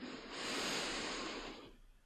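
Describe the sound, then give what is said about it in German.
A single long, deep breath drawn into the belly: a soft, airy rush that swells over about a second, holds, then fades away, alone and fairly quiet. “nimm einen tiefen Atemzug in den Bauch hinein”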